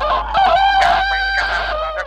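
Rooster crowing in a village where chickens are kept: one loud, drawn-out crow with a strong, bright harmonic tone that holds for about two seconds.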